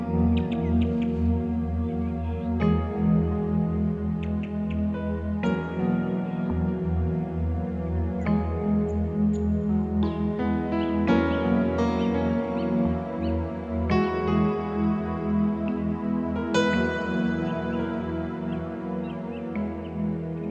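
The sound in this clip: Continuous instrumental music with sustained harmonic tones and regular note changes every few seconds plays at steady, moderate loudness, with no talking over it.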